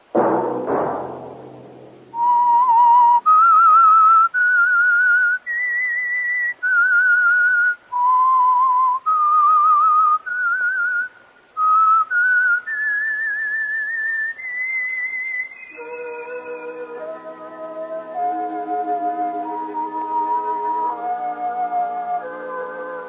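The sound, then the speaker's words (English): A whistled theme tune for an old-time radio drama, a clear solo melody of sustained notes that step up and down in pitch, followed by a soft orchestral passage with several notes held together. No talk is heard. “Let that whistle be your signal for the Signal Oil program, The Whistler, each Sunday night at this same time.”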